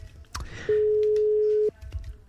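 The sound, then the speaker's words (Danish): A telephone ringing tone during a call to a radio show listener: one steady, clear tone lasting about a second, with faint background noise before and after. “Det ringer.”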